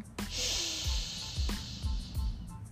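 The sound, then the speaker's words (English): One long, deep breath drawn in, heard as an airy hiss lasting over a second above faint, low rhythmic pulses. “I take a deep breath in.”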